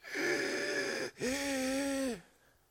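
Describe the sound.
A man's voice imitates a deep breath: a strained, hoarse, wheezing intake and release in two drawn-out parts, each about a second long, with a raspy tonal quality and no other sound.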